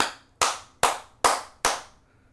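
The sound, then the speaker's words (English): Five sharp hand claps from a man cheering a baseball play from his chair, evenly spaced in a steady rhythm. Each clap is crisp and loud with a quick decay, and no voices are heard. “We call it the five clap, because he claps”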